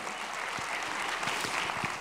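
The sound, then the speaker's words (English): Audience applause, a steady patter of many hands clapping, fairly soft and even from start to finish. “Yes, let's give her another round of applause.”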